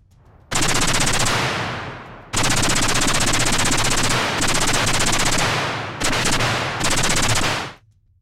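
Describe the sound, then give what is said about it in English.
An SR-3 compact assault rifle fires fully automatic, loud volleys of rapid gunfire in a few long sustained bursts separated by brief breaks, the last burst cutting off abruptly. “Arihant placed his SR 3 compact assault rifle over the lip of the concrete barrier he then raked the enemy ranks with a blistering volley of fire that sent them cowering behind disintegrating walls of sandbags.”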